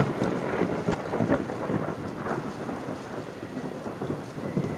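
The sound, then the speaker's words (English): A thunderstorm with continuous hissing rain and deep, rolling rumbles of thunder underneath, holding a fairly even loudness throughout with no talking. “I'm coming. The storm is approaching.”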